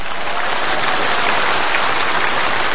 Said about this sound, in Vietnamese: Chứ bây giờ phải vỗ tay cho sư vui lòng, chứ sư ở xa xuống mà.